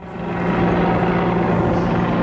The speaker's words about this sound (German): Der ständig über Tivat kreisende Helikopter lässt vermuten, hier passiert heute Ereignisreiches.